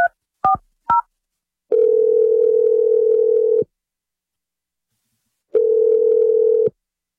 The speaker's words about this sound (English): All right, here we go. I'm going to dial it right now.